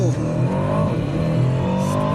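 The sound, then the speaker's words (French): A 707-horsepower sports car roars through a launch-control start, its engine note loud and continuous while the pitch climbs steadily under hard acceleration. “Pour ça, je te propose qu'on fasse un petit launch control. Bon juge de paix, ouais. On va tester ça tout de suite. Allez, pied sur le frein, pied sur l'accélérateur.”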